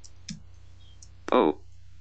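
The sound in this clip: A few soft, quick key clicks come from a computer keyboard as someone types a search into the Windows start menu. A brief burst of synthetic-sounding speech follows.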